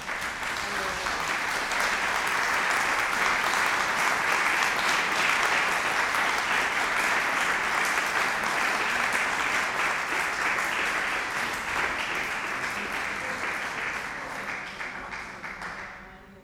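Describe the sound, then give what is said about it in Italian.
Audience applause at a book presentation, a sustained, loud wash of many clapping hands that holds steady for a long stretch and then gradually fades toward the end. “Io vorrei forse fare un applauso, non so se si può”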